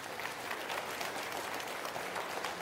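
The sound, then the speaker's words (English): Audience applause at a church worship service: soft but dense clapping that runs steadily through the whole stretch with no clear break. “Let us have a round of applause for his glory and his blessing”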